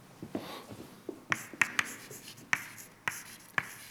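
Writing out a tensor formula during a lecture: soft scratchy strokes at first, then about six sharp, crisp taps spaced irregularly over several seconds, with no voices.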